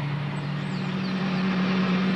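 Steady engine drone of a new car being driven, a continuous low hum holding an even level throughout with no voices over it.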